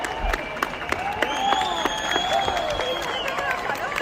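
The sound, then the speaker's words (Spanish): People in the streets of Madrid clap and cheer as the electricity comes back after an outage. Scattered claps sound over a steady crowd murmur, with some drawn-out cheering cries on top. “La gente celebrando así el regreso de la luz, aunque hay partes de la ciudad en las que se ha encendido el alumbrado público.”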